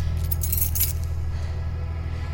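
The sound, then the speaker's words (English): Keys jangle as they are handed over, a brief bright metallic clinking that fades quickly, leaving a steady low hum underneath. “All right, here, take the keys.”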